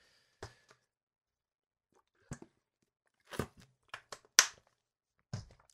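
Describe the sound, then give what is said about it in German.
Someone taking a drink, heard as several brief, soft clicks and gulps separated by stretches of quiet, with the strongest of them falling in the later half. “Ich will mal kurz ein Stück trinken.”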